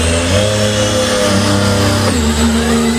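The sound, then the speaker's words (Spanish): Ferrari car engines in Madrid ahead of a Grand Prix give a loud, sustained droning roar with strong tonal harmonics, shifting in pitch about two seconds in. “Esto es en septiembre, a ver cómo suenan los Ferrari por Madrid.”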